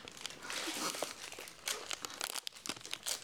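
Faint crinkling and crunching as Kee Wah Bakery pastries brought from Hong Kong are eaten, with steady rustling of wrappers and small crisp bites close together.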